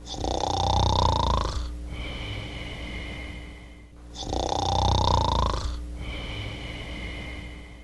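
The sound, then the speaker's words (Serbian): Snoring and puffing from someone asleep in bed with a quilt pulled over the head: two long, rasping snores with a whistly tone, each followed by a softer, breathy puff, in a slow, steady cycle. “Jorgan je navukao preko glave i čulo se samo hrkanje i puhanje.”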